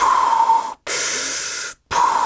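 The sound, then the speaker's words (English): A voice imitates the hissing mechanical breathing of a replica helmet's sound box: three harsh, airy breaths with a thin whistling tone in the first and last, each broken off by a short silence. “And it's got like the special breathing sound box”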